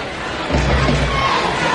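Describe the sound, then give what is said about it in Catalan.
Real Madrid supporters in a football stadium raise a short swell of crowd noise during a women's match. It rises suddenly, holds steadily, then eases back to a low murmur. “Quan el Madrid roba la pilota senten alguns aplaudiments de la gent del Madrid, que també vol que el seu equip foti alguna cosa.”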